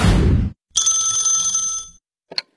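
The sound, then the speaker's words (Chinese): A telephone rings with an incoming call: one bright, sustained ring lasting about a second, followed shortly by a quick chirp. A brief burst of dense sound comes before the ring. “这天呢，小何跟佳佳正看电视呢，小何的表弟打来了电话。”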